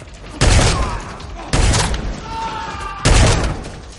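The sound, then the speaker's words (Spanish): Three loud shotgun blasts in an action film fight scene from John Wick: Chapter 2, each a sharp booming crack with a long rumbling tail, spaced roughly a second apart. “Dispara a un hombre y forcejea con él. Mata a dos más.”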